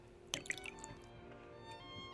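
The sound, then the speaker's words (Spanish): Port wine poured into two small glasses: a few brief liquid drips and splashes near the start, then a steady low background hum with no further clear pouring. “Vamos a llenar dos copitas de oporto y a brindar por todo esto.”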